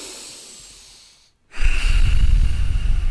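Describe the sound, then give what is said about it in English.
A person breathes in and out through the nose. A soft, hissy inhale is followed by a brief silent pause, then a louder rushing exhale. “So if you take a breath in through your nose and out through your nose right now”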